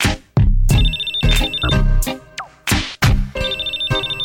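Electronic telephone ringtone sounding during a call, in short repeated high bursts layered over a loud hip-hop beat with heavy bass thumps, in a rap track.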